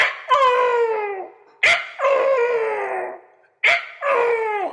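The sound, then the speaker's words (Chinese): A peahen gives three loud, wailing calls, each starting with a sharp onset and then sliding downward in pitch. Short silent gaps separate the calls. “母孔雀叫春的时候，两个人就互相这么叫了。这个声音传得很远”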